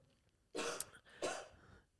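Two coughs from a person, separated by a short pause, each a broad, rough burst of moderate loudness with no talk around them.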